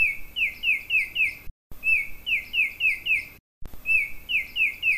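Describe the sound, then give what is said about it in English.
Baltimore Oriole chatter call from eastern North America: three bursts of about five rapid, down-slurred whistled notes each, separated by brief silences, bright and clear against soft background noise. “Their distinctive chatter, which is unlike the call of any other bird where orioles occur, sounds like this.”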